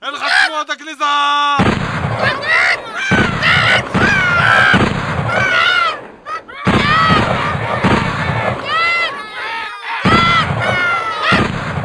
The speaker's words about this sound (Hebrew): מי יורה, תגיד לי? אתה! לא נכון. אז מה זה? זה רובה.